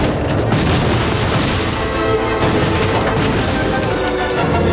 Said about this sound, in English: Van Pelt shoots up the police car at a streetlight